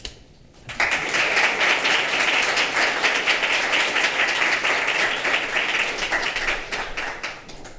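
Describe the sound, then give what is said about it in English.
An audience at a college lecture applauds to welcome back a professor speaking on disavowed art. The clapping starts abruptly after a short quiet moment, then holds as a dense, even roar before easing slightly at the end. “I invite you to join me in giving an enthusiastic welcome back as she addresses disavowed art.”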